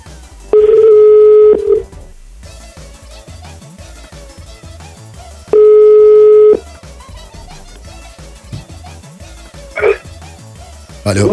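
A telephone ringing tone sounds while a listener is being called: two long, steady beeps about five seconds apart over a busy, constant background.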